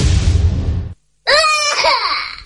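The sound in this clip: A young child cries with a loud, high, harmonic wail. It follows a burst of rough low noise and a brief silence.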